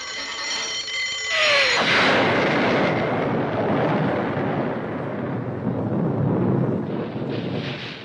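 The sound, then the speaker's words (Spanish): A bomb explosion: a high whistling tone drops away into a loud, broad roar and rumble that stays heavy and sustained for several seconds without fading much. “El Capitán Garfio, pensando que la bomba había acabado con Peter Pan”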